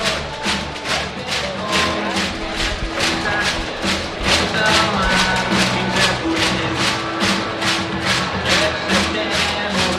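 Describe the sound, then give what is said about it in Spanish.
Girona football fans singing their anthem at Montilivi stadium: a dense, loud crowd roar with steady rhythmic pulses running throughout, unbroken from start to end. “Como en muchos campos de España, también están cogiendo la costumbre de cantar su himno, Girona, Girona. Más modernillo.”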